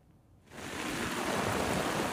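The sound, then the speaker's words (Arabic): Heavy rain pours during a storm in a fish market in Latakia. After a brief quiet start, a dense, even hiss rises abruptly and holds steady to the end, with no voices. “الأمطار ما عم تهدى باللاذقية، ونحن هون بسوق السمك عم نعاني من قصة الصرف المطري.”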